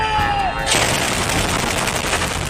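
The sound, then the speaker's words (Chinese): Anti-aircraft guns and portable surface-to-air weapons firing at night on a high plateau: a loud, dense, continuous roar of rapid fire that sets in abruptly and carries on without a break. “暗夜之中，便携式地空导弹高炮火力再次全开，在夜空之密立体拦截火力屏障，成功拦截来袭目标。”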